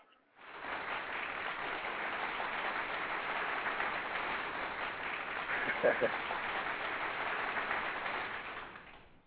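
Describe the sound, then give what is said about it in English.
Applause sound effect played for a guest on a talk show: a sustained burst of clapping that swells in quickly, holds steady for about eight seconds, then stops. “Man, let me give you a round of applause, man. I give all my guests a round of applause, man.”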